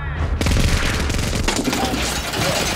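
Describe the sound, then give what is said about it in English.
A minigun sound effect fires in a continuous roaring burst of extremely rapid shots. It kicks in after a brief moment and stays loud and dense, with no gaps, through to the end. “That's a damn minigun!”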